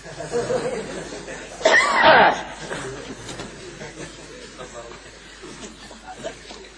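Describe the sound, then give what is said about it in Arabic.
A short, harsh cough bursts out once during a lesson on Islamic jurisprudence. It is louder than the low murmur of talk around it. “أستأذنكم أسعل.”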